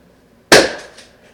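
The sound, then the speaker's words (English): A single sharp gunshot, fired at a possum in a backyard at night, cracks out abruptly and then fades in a short decaying tail, with no other sound around it. “So, I just shot a possum out my backyard.”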